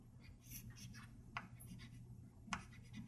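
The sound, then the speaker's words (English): Handwriting during a lecture: faint, scratchy pen strokes run through the whole stretch, with two sharper ticks standing out among the steady soft scraping. “let me write inverse of the time. So 1 over t would be”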